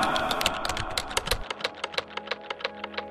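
Typing on a computer keyboard. A quick flurry of keystrokes gives way to slower, evenly spaced, crisp clicks.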